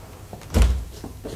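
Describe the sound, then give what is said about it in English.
A door is shut with a single low, dull thud that fades quickly, and no voices are heard. “Now that you're here, you'd better stay, if you wouldn't mind shutting the door.”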